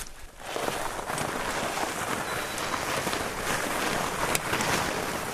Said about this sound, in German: Hier aber beißt sich ein dicker Vorderreifen in den plattgetretenen Schnee.